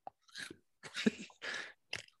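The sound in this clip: Crunching on Hot Cheetos, ASMR-style eating: a few crisp, crackly chewing bursts, close and clear, separated by short silences, with one brief sharp snap at the end.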